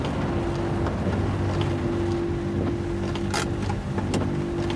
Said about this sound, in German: Es stürmt jetzt hier immer noch, ne?